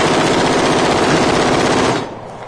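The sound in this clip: A gun fires one long, rapid burst lasting about two seconds, loud and dense, then stops, leaving quieter noise behind.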